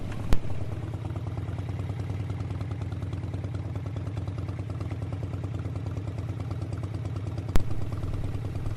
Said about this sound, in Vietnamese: Xe nổ máy bắn bắn, bỏ tận cửa nhà bà ngoại.